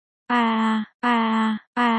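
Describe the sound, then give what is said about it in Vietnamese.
Soft groaning in pain from a stomach ache: three drawn-out, even moans at a steady low pitch, separated by brief pauses. “nó phát ra những tiếng rên đau khe khẽ để bắt đầu lấy dần sự chú ý của cô bé bên cạnh”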